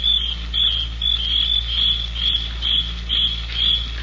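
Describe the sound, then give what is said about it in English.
Crickets shrill loudly at night, a high, piercing trill pulsing in a steady rhythm of short bursts over a faint low hum. “But there wasn't a sound except the crickets. Shrilling so loudly, the noise seemed to beat inside my brain.”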